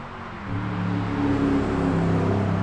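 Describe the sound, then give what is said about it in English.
A Corvette racing down a country road, its engine swelling after a quieter start into a steady, sustained drone with a faint tonal whine, no voices. “This guy has a Corvette just racing down this country road.”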